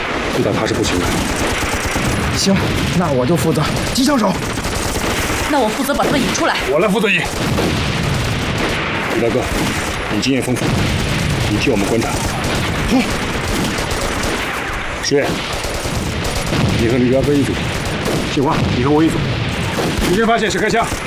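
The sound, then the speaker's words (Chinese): Heavy machine gun fire from Japanese enemy positions in a wartime battle: dense, loud, continuous bursts of gunfire with booms running throughout, while voices speak beneath the shooting. “鬼子重机枪火力太猛，我们得解决他。”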